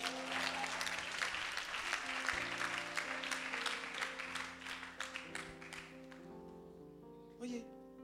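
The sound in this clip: A church audience applauds in praise of God, with loud, dense clapping over sustained musical tones. The clapping thins out near the end.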